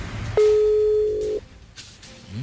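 A telephone ringback tone heard while a call is being placed. It is a single steady, clear electronic tone lasting about a second, followed by quiet background.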